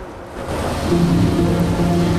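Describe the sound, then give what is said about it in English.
Heavy rain pours onto a car windscreen during a thunderstorm, a dense, loud rushing hiss that swells after the first half second, with a low, steady hum rising beneath it shortly after. “her wipers fail to keep the windscreen free of the relentless rain sheet”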